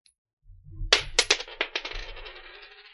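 A flipped coin lands on the ground with a rapid series of bright metallic clinks as it bounces, the gaps between hits shrinking, then settles into a fading, shimmering ring, after a faint low shuffle.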